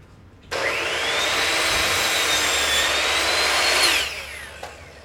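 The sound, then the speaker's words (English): A miter saw cuts wood boards to length, giving one loud, sustained roaring whine for about three and a half seconds before winding down. “And so what I'll do is put them on the miter saw now and just cut them to length as they need.”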